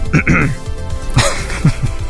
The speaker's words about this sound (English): Just you cleared your throat.